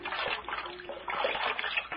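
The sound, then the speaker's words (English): Cold water splashes and trickles as it is used to bathe an old man's head, soft wet dribbling with a few light splashes, faint and continuous. “Now, this cold water will help that head.”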